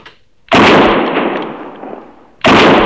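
Two sharp, loud gunshots are fired at an antelope. The first ends in a long rumbling decay that fades out before the second blast cracks out near the end.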